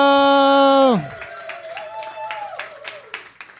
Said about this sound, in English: Please make some noise right now for Amanda Lynn Dio.